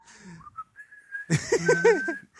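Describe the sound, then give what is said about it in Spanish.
A person whistling casually during a chat between video game players. It starts with a few thin, wavering tones, then moves into a louder, warbling run of notes. “Perdón, que me haya dado por silbar.”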